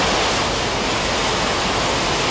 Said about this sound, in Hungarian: Így néz ki a Borsod megyei Színvapatak. A helyiek szerint inkább vízeséshez hasonlít.